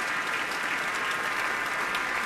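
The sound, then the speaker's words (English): Seated orchestra members applaud a pianist after a performance of Mozart's Piano Concerto No. 27, with soft, sustained, even clapping from many hands and no voices. “the members of the orchestra are seated and they are clapping, letting him soak it in all by himself.”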